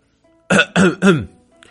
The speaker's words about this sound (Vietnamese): vội ho một tiếng và nói